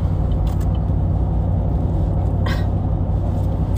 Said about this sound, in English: I'm driving right now.